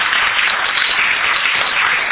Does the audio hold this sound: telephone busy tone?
no